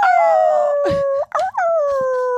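A person imitates a werewolf howling at the moon, voicing a loud, sustained howl in two long held notes split by a brief break.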